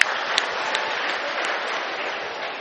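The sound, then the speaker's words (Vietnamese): Applause from an audience at a Buddhist dharma talk: a dense, steady patter of many hands clapping at an even level for the whole clip. “Rồi hoan nghênh.”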